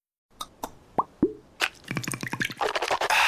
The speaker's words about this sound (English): You know what that is. That's the sound of wow with Listerine. Simply grab, twist, pour, and swish for 30 seconds twice a day to add the wow of Listerine